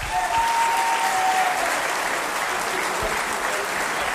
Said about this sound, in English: Y'all give this guy a hand.